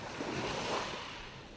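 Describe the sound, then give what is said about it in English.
Ocean waves on a tourist beach in Kilifi county: a soft, continuous wash of surf that swells briefly midway and then eases off. “I can see some people swimming in the ocean while others sunbathe on the beach.”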